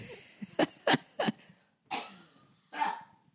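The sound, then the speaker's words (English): A man with a lingering cough: three sharp, harsh coughs in quick succession, then two more spaced out after short pauses, each one loud and raspy. “Will this cough ever go away? I think I might take some medicine.”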